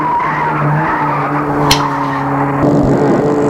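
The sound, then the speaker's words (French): A car engine drones loudly and steadily with a sustained, mostly level tone and a sharp click partway through. “Et Gilles accélère. Et Gilles accélère.”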